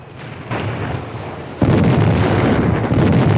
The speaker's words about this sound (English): The ship begins to bombard the hills with shellfire.